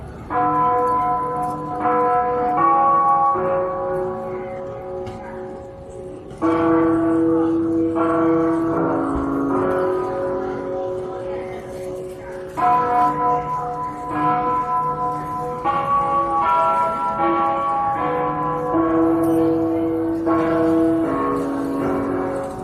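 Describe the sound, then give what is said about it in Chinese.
Bell chime sounding after the hourly time signal at Beijing railway station, playing a melody of many sustained ringing tones that overlap and change pitch steadily, loud and continuous throughout. “它曾出现在北京火车站整点报时后的钟声里”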